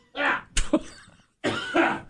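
Coughing and throat clearing from a dry throat: three harsh, rasping bursts. The middle burst breaks into a few quick choppy coughs, and the short bouts are separated by brief silences.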